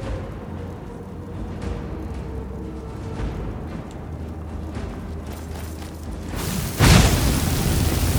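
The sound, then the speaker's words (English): A booming dragon shout from a fantasy video game bursts out near the end as a sudden loud blast. Steady low in-game rumble plays before it and continues afterward. “let me set my shout for Fusro Da. There we go.”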